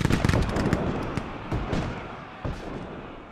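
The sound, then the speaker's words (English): Rifle gunfire from a Civil War battle: a dense crackle of many rapid, overlapping shots, heaviest at the start, then thinning into scattered loud reports over a steady rumbling background. “rebel and Yankee soldiers have literally stumbled into a battle, they quickly form lines and open fire with reckless abandon.”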